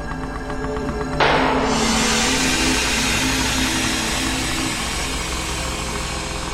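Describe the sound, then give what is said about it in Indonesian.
A motorcycle riding slowly makes a steady engine drone with a low hum. After about a second a brighter hissing noise joins and continues at an even level. “Motorku pun melaju perlahan hingga di depan aku berpapasan dengan tukang parkir”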